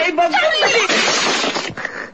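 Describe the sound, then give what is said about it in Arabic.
A glass cognac bottle breaks in a brief, bright burst of shattering after a short stretch of voice, then trails off quickly. “ايه الازازه انكسرت يا خساره الكونياك الكويس.”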